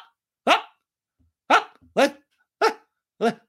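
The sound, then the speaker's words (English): Five short, high-pitched vocal yelps like a little dog's, each a brief burst spaced apart by gaps, made by a human voice. “the little yelp she makes, which is like a little dog, she's like,”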